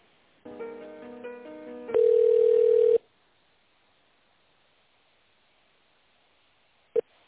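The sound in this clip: Telephone tones play as an office call is transferred to the accounting department: a quick melodic run of several notes, then one loud steady tone for about a second, silence, and a single short beep near the end.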